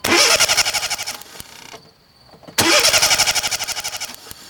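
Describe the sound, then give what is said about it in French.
A car on a village square cranks without starting: two long bursts of rapid, rhythmic starter churning, separated by a short quiet pause, with the engine never catching. “Sur la place du village, Bernard essaie de faire démarrer sa voiture, sans succès.”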